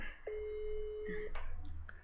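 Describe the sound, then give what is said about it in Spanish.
A telephone busy signal heard while dialing a call: one steady, clear electronic tone lasting about a second, followed by a few faint clicks over quiet background hiss. “Fíjate, yo inocentemente le estoy marcando a Derbez.”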